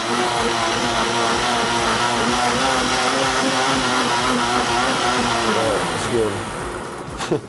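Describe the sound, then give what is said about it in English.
Blender crushing ice with banana, peanut butter and yogurt for a blended drink: a loud, steady motor whir with gritty grinding that runs continuously, then cuts off near the end. “gotta blend up all that ice. Banana, peanut butter,”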